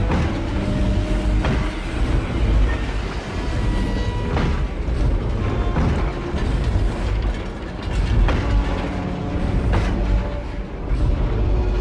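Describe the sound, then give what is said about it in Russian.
A steam locomotive hauling freight wagons arrives with a steady, loud mechanical clatter of rattling gears and couplings, broken by a few sharper clanks, continuing throughout with no voices. “Прибыл паровоз.”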